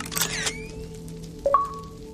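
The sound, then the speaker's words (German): Camera shutter taking a photo in Minecraft: a short, rattling click burst near the start, followed a moment later by a couple of faint beeps that step upward in pitch. “Ich mache jetzt mal ein Foto. Ja, warte mal, bleib mal stehen.”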